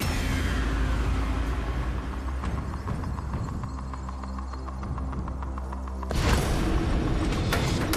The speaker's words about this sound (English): I'll stick with Drop Zone 4. Fire up Drop Zone 4, please.